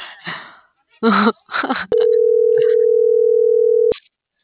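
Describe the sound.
A telephone line tone plays as a call goes unanswered: a single steady, mid-pitched beep held for about two seconds, following a few short bursts of speech.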